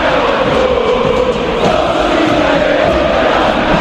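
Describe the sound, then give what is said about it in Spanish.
River Plate football fans chanting in unison in the stands at Núñez against the AFA president, a loud, continuous mass of singing voices with a steady, droning melody. “Bueno, el presidente de AFA no es bienvenido en Núñez. Hace rato que cada uno de los cánticos del público de River tiene que ver justamente con la figura del presidente de la AFA”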